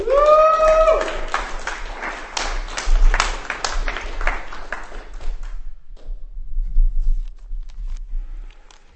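Scattered applause from the audience at a poetry reading greets a poet. Sparse, uneven claps rise for a few seconds, then thin out and fade to near silence.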